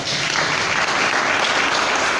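An audience applauds in a dense, steady wash of many hands clapping, loud and unbroken from start to finish.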